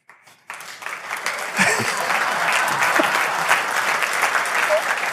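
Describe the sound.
Audience applause welcomes a copywriter onto the stage as a steady, dense burst of clapping that swells quickly after a brief start and stays loud throughout.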